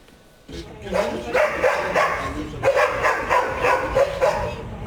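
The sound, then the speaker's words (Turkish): Many dogs bark at a dog farm set between apartment buildings in Yıldırım, their loud, overlapping barks and yips forming a dense, nearly continuous clamor that begins suddenly and keeps going to the end. “Binaların arasındaki köpek çiftliği mahalleyi ayağa kaldırdı.”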